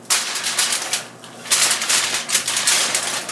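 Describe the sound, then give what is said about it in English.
Tin foil crinkles and rustles as a potato is wrapped up in it, in a string of irregular crackly bursts separated by brief lulls, with no talking. “So we're going to wrap this potato up in the tin foil.”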